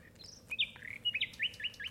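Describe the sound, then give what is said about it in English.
A sparrow chirping early in the morning, a quick run of many short, bright, high-pitched chirps in uneven bursts, clear above a faint background hiss, with no voices. “Oh, God, I thought it wouldn't be long before he started. Who? That bloody sparrow. What's he got to get up so early for?”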